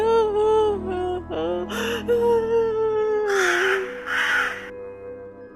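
A crow caws in a series of harsh, drawn-out calls. The calls are loud and come one after another, some raspy and broad, with no talking.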